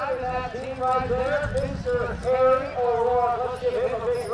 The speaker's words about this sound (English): And the next generation drives the pony-led buggy through the ring to drop off and pick up barrels.